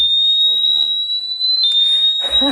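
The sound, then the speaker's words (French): A piercing, steady high-pitched electronic tone sounds throughout as an anti-theft bike lock alarm on a bicycle is triggered by moving the bike, with voices talking underneath. “Hop, on verrouille l'antivol. Il est sur le vélo. Il bouge plus, il va s'initialiser. Et à partir du moment où je le bouge, je manipule. Une première alerte.”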